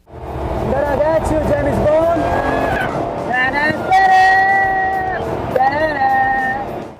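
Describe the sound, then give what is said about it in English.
A Jaguar supercar, driven on a race track by a Formula One driver, gives a loud, continuous engine roar whose tones climb, hold steady and shift again as it accelerates. “Jaguar released a video of Formula One driver Felipe Massa getting some time behind the wheel of the supercar”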